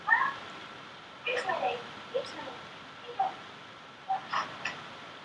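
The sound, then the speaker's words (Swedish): A cat meowing in a few faint, short calls spread over a steady low hiss. “Jag måste släppa ut min katt.”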